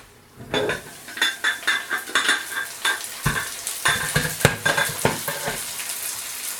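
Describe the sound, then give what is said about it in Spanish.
Onion sizzles in a hot frying pan while a utensil stirs it, giving a steady crackling hiss broken by many rhythmic scrapes and clinks against the pan. “Vale, vamos a ver cómo va esa cebolla.”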